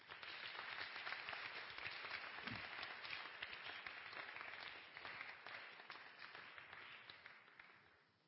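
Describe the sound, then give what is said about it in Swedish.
Applause from a church audience after a drama performance: a dense, steady wash of clapping that holds at an even level for about eight seconds, then tapers off at the very end. “Ska vi ge dem en stor applåd till?”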